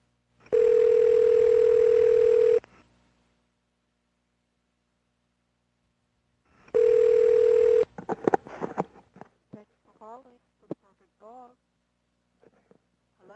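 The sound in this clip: A steady telephone dial tone sounds while a call is placed, in two bursts of roughly two seconds and one second. Scattered clicks and people talking follow.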